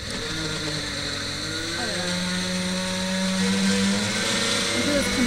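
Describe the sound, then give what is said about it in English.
A blender runs while mixing butter in a home kitchen, giving a steady, loud motor whir with high-pitched whine and tonal hum that shifts slightly in pitch throughout. “We need to blend the butter, and then when that's combined, you put puree?”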